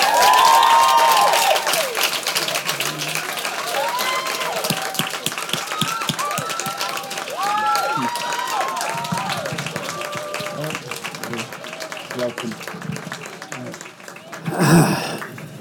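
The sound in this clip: Audience applause greets the director and star of Cosmopolis as they are introduced, a dense, steady patter of many hands that starts under a man's announcing voice and carries on for several seconds before fading.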